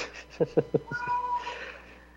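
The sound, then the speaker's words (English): A house cat meows during a call from home, giving one drawn-out, tonal meow that holds steady before fading. A few short, clipped sounds come just before it, all fairly faint. “Oh, that's me. I'm the one with the cat.”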